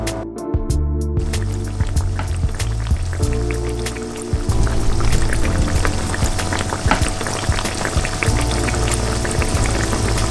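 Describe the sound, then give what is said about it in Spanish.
Egg-dipped food fries in a pan with a loud, dense, steady sizzle of crackling pops that swells a little partway through and holds. “Y lo ponemos a freír.”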